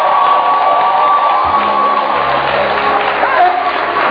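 Cheering and whoops rise from a church audience acclaiming the Lord during a worship service, a dense, steady crowd roar that holds at full loudness throughout, with a sustained tone running beneath it.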